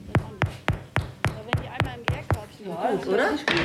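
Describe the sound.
Knuckles knock on freshly baked bread loaves fresh from the oven, a steady series of hollow, evenly spaced thuds. A voice speaks briefly, then one more knock follows.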